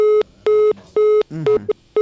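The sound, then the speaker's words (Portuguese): Busy tone after a dropped phone call: a steady, evenly spaced pulsing beep at one fixed pitch, repeating loudly on and off. “Caiu a ligação, mãe.”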